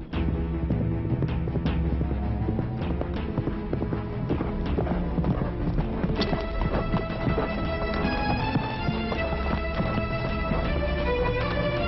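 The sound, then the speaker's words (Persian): A saddled and tacked horse clip-clops with many hoofbeats in a steady, fairly loud rhythm that continues through the whole clip. “زین و یراق کردم تا خودم را به همیرا برسانم.”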